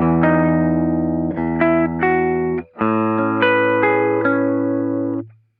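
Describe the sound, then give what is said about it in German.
An electric guitar plays through an activated Pure Booster pedal, giving a bright, lightly boosted tone. It strikes a series of ringing chords and notes with a short gap partway through, and the final chord sustains before fading out. “erste Stufe ist ein Pure Booster, den ich noch einfach, um das Ding ein bisschen so anzublasen. Der ist jetzt aktiviert.”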